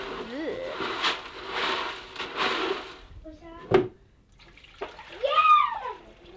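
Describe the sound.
Water splashes and sloshes in irregular bursts as messy items are washed out, with a few sharper knocks and clatters and people, including a child, talking throughout.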